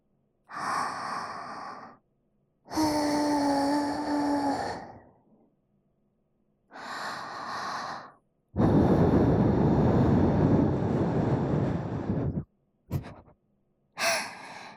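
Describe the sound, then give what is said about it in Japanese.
Air blown into an ear after ear cleaning: a steady, soft, breathy rush lasting about four seconds, then a brief puff. Several short breathy vocal sounds come before it. “よし、そろそろいいかな。ふうするぞ、ふう。”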